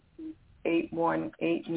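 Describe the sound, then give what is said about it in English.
A telephone line opens to a caller with a short low beep, followed by thin, narrow-band phone audio in which a voice talks. “Okay, we have someone on the line, so I'm going to open the line now and take this caller.”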